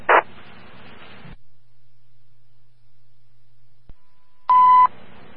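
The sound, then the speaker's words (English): Alarm tone test on a fire dispatch radio channel: two brief, loud electronic tone bursts, one at the start and one near the end, separated by radio hiss, a click and a stretch of silence. “My alarm testing.”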